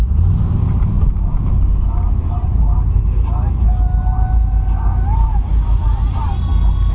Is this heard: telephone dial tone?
no